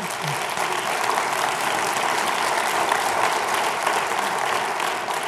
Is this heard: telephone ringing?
no